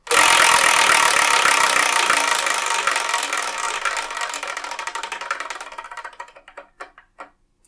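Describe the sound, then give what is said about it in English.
A selection wheel is spun, setting off a rapid stream of clicking ticks that gradually slow and thin out, ending in a few sparse, separate clicks as the wheel comes to rest. “Anyway, let's spin and see what we're going to get.”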